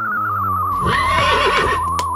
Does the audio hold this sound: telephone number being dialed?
no